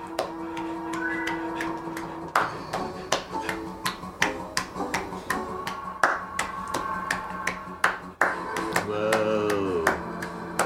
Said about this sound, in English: write in with your guesses as to what that sound is. It was clapping. I mean, every time I hear it, it just does not sound like clapping to me.